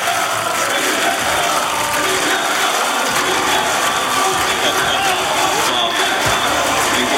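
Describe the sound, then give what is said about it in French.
Loud, dense crowd noise from spectators at the Tour de France cheering the yellow-jersey winner Jonas Vingegaard, a steady, unbroken roar of voices and clapping with no pauses. “Vous entendez le public qui scande son nom, Vingegaard.”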